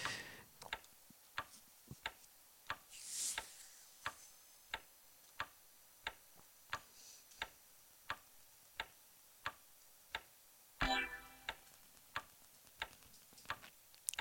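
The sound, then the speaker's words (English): A clock ticking in a slow, very regular beat, many crisp, faint ticks evenly spaced throughout, with a brief soft rustle once or twice and no voices. “I seriously believe that ticking will put anybody to sleep.”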